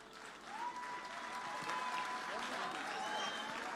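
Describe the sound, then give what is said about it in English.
Audience applause at a church service as a singer is welcomed to perform: dense, steady clapping that continues throughout at a fairly low level, with some voices underneath. “Ladies and gentlemen, let's put our hands together and welcome Merciful.”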